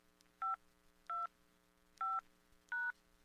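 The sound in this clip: Four telephone keypad tones dial into voicemail. Each is a short, steady, clear beep, evenly spaced, heard alone over a faint continuous hum.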